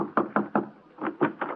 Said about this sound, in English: Somebody thumped on my door.